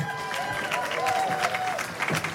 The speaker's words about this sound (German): Komm, ein Applaus für Sebastian.